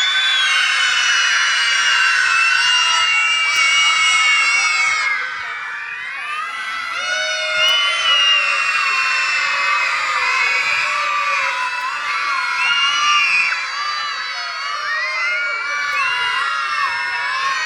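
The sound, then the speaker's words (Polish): Children shout and scream as loudly as they can, a sustained high-pitched din of many voices that dips briefly partway through and then surges back. “Dobra, to teraz proszę się wykrzyczeć na chwilę, najgłośniej jak tylko potraficie, żeby...”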